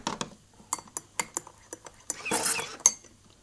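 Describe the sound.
A spoon stirs a hot chocolate drink in a cup, giving a series of light, faint clinks and taps at an uneven rhythm.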